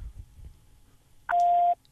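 A telephone keypad tone sounds as zero is pressed: one steady electronic beep lasting under half a second. It follows a stretch of faint low rumble.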